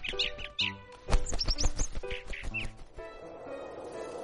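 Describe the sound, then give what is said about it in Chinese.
Bluebird song heard as a few high, quick chirps and tweets mixed with short clicking notes, then settling into softer, fainter sound. “蓝鸟唱完这支歌，又围着小树飞了一圈，就飞走了。”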